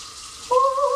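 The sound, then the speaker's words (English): Tap water pours straight into a kettle. A steady watery hiss runs throughout, and halfway through a clear ringing tone joins and holds to the end. “I went ahead and put the water straight in the kettle.”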